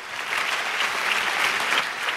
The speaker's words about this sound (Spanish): Dale mejor ese aplauso.